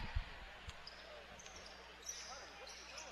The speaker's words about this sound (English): with the dribble to the left side